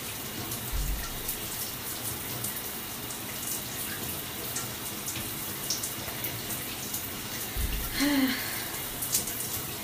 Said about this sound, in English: Oh, it's to work up a lather. Just hurry up and wash the rest.